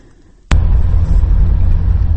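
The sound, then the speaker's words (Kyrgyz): A UAZ vehicle driving on a remote mountain road in Alaykuu, from Kok-Art village toward the district centre: near quiet, then an abrupt, loud, steady low engine and road rumble from half a second on. “Биз азыр Алайкуунун алыскы Көк Арт айылынан райондун борбору Каралжаны көздөй УАЗ автоунаасына кетип баратабыз.”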